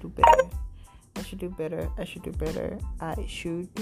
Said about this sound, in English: Let me put my phone on mute.